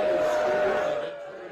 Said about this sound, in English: oh, that's Mitch McConnell trying to talk. They booed him in Kentucky. They booed him. Now they're shouting, retire.